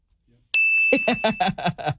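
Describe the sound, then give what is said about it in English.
A single bright ding from a small desk bell rung by a host, its clear high tone ringing on for about a second before several people start talking over it. “No, I had to search for the bell.”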